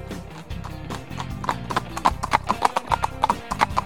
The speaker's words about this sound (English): Come on, Slowpoke. Giddy up.